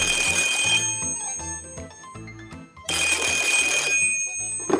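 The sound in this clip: A red telephone's bell rings in two bright, rattling bursts separated by a pause.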